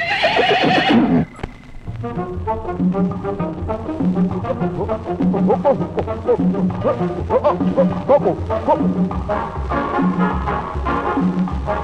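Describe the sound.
A horse whinnies loudly for about a second. A lively Cuban dance band with brass and percussion then starts up and keeps playing.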